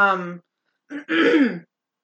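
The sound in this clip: Throat clearing from phlegm, put down to spring allergies and pollen: a brief voiced sound, a pause, then a short rasp followed by a longer, gravelly clearing.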